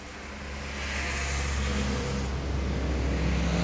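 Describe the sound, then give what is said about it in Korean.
A ladder truck is driven during class-one large-vehicle licence practice at a driving school. Its engine gives a steady, low, broad rumble that swells slightly after the first second and then holds even, with no voices. “운전면허 연습학원 김영철이 대형 일종 면허 운전 연습을 하고 있다. 사다리차 운전이다.”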